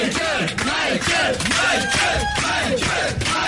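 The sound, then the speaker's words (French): Fans give a live singer an ovation after a song, with a loud crowd roaring, yelling and cheering, and repeated shouted bursts pulsing in a rough rhythm over a constant wall of noise. “alors que là, il y a toujours l'ovation, bien sûr, de ses fans qui sont venus nombreux de la France entière, de l'Europe européenne.”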